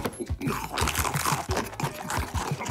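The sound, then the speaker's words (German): Crunching bites of a cookie being eaten come as many rapid, dry crackling crunches in an uneven chewing rhythm, with no talk over them. “Lecker, einfach, köstlich, dieser Keks ist weg. Ich hab ihn gegessen.”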